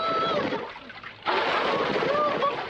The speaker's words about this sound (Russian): Тигры один за другим прыгают в воду.